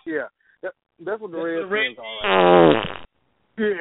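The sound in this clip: A fart sound effect fired from a button: one loud, buzzy, raspy blat lasting under a second, set between stretches of men talking.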